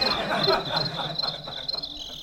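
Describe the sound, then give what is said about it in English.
Crickets chirp in a steady, high-pitched pulsing trill, fairly faint and continuous throughout. “I like these crickets in this thing. They're much more pleasant. Like, I could sleep to that.”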